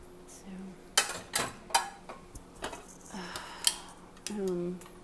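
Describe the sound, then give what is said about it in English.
A rusted metal pan with knife cuts is tossed into the garbage, making a few sharp metallic clanks and rattles spread over several seconds, with brief talking in between. “we're going to put this pan in the garbage because somebody cut it with a really sharp knife and it is rusted.”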